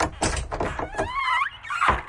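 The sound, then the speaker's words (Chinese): A door is opened by a woman at night. A few dull wooden thunks come first, then a wavering high squeal, then a final knock. “马依山女人打开门，一个身影裹在一团黑暗里一头栽了进来。”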